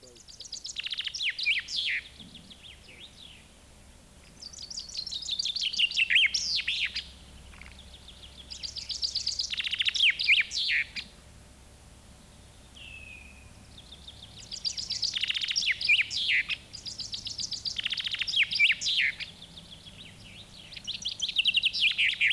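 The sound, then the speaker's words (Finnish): A common chaffinch sings bright, rapid trilled phrases again and again, each burst separated by a short pause, clear and alone apart from one brief call in a gap. “Peipponen.”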